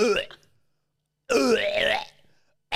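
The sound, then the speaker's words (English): A voice imitates someone retching with fingers pushed down the throat, a loud, strained gagging sound of about a second that wavers in pitch, set between brief vocal sounds and silence. “she quite often can't get the vomit out, like. She's just going like this, and she's just got like this bag, and she's just putting her fingers all the way down her throat, and she's going,”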